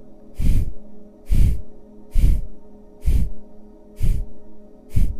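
A deep breath is exhaled during a guided breathing exercise, heard as six short breathy rushes at an even, regular pace. Each is soft and airy with a low body, and quiet gaps sit between them.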